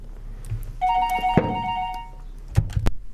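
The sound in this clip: A telephone rings with an incoming call: one steady electronic ring tone lasting about a second, followed by a few dull thuds.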